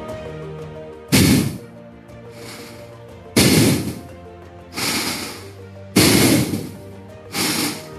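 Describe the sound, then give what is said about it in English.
Rapid, forceful fire breaths pushed out through the nose with the mouth closed and the tongue at the roof of the mouth: five sharp, noisy bursts of air spaced one to two seconds apart, with no talk over them. “So I'm going to breathe in and exhale. I'm going to do a couple of fire breaths.”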